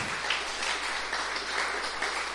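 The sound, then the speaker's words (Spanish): Applause from a church audience, a steady, dense wash of clapping without a break. “Eso merece un aplauso, ¿verdad?”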